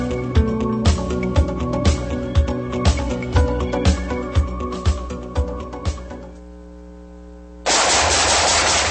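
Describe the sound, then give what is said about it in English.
Gunfire: a long series of loud, evenly spaced shots, then a brief lull before a dense, continuous roar of automatic fire that runs to the end. “Nice shooting.”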